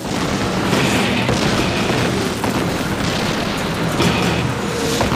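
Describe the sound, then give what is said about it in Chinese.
Artillery fires on tanks in a loud barrage of deep booms over a continuous rumbling roar, with a few sharper blasts standing out from the dense noise. “我们通过无线电发出指令，大约10分钟后，我们的火炮就朝坦克开火了。”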